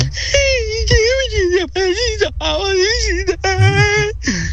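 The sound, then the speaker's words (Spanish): A voice imitates crying for a character called Culantro who starts to weep in an office booth, producing wavering, high-pitched wailing sobs broken into several uneven bursts with short catches of breath between them. “Y comienza a voltear un lado para el otro y comienza a llorar.”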